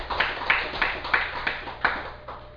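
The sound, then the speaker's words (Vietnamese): Faint, evenly spaced hand claps come from the audience at a Buddhist dharma talk on pure living, a handful of sharp claps in a steady rhythm. “Xin quý vị vỗ cho một tràng hôm nay.”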